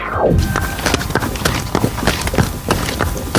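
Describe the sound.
A horse at a relaxed walking gait gives steady hoof clip-clop, many crisp strikes in an even, unhurried rhythm over a constant background noise.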